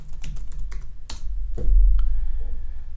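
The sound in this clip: Clicky keystrokes sound as words are typed on a computer keyboard into a web application, a few distinct taps at an uneven pace, followed by a steady low hum.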